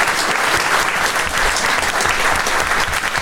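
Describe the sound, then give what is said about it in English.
Audience at a live comedy show applauding: dense, loud, steady clapping across the whole stretch, with no talk over it. “Give yourselves a round of applause for coming along.”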